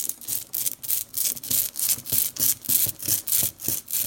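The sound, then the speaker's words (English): A rubber brayer rolls ink out onto an inking plate for printmaking, making a soft, sticky rolling rasp. The strokes repeat in a steady, even back-and-forth rhythm, quiet and without voices. “That's the sound of ink being rolled out onto an inking plate with a rubber brayer.”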